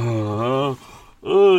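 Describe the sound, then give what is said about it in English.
A person yawns with a long, drawn-out voiced groan, then a brief quiet break and more voicing. “yawn time. That was... I've been stifling that yawn for ages.”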